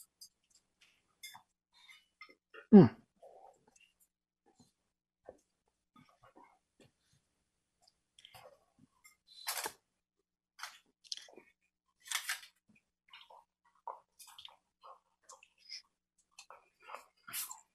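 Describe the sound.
Faint, crunchy chewing of a piece of home-baked shortbread, with many soft, irregular bites and crunches that grow more frequent in the second half.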